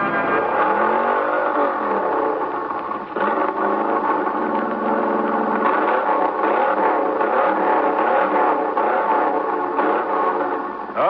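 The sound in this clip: Car engine revving hard at full throttle during a road test, a loud, steady, continuous roar with only a brief dip partway through.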